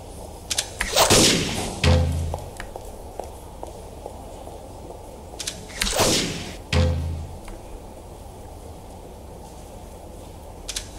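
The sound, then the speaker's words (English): Gunfire in a video game, with enemies shooting at the player. Two separated clusters of sharp cracks and thuds stand out against a quiet background, with scattered faint ticks between them. “there are people shooting at you, and you have to use the shield.”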